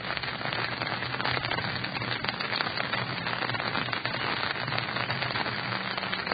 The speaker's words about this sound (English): It was raining that day, as you can tell.